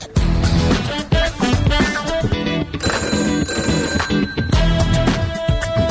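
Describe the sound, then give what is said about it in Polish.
A telephone bell rings loudly in repeated bright bursts, calling a stock exchange phone line, with a busy steady sound bed around the rings. “To telefon do giełdy oczywiście.”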